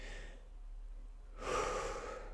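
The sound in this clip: A speaker talking about stress and hyperventilating takes one deep, loud breath after a quiet pause. The airy rush swells quickly and holds to the end, with no talking over it.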